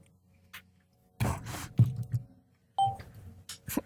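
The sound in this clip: Telephone keypad tones as a number is dialed to call someone back: a few short beeps and clicks in two quick clusters, fairly faint, with pauses before and between.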